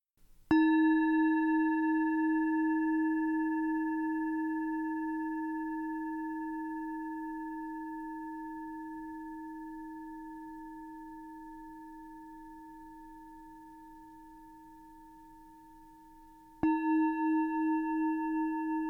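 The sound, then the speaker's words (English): A singing bowl is struck twice. Each strike releases a clear, pure, bell-like tone with several steady overtones. The first ring sustains and slowly fades for over fifteen seconds before the second strike brings it back to full strength. “Now listen to the sound of this singing bowl.”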